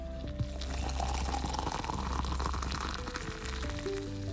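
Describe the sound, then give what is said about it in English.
Coffee pours into a mug with a red shed design, a steady liquid stream that rises slightly in pitch as the mug fills, over a soft tonal musical backdrop. “Coffee cheers, my friends, because this is the sound of heaven.”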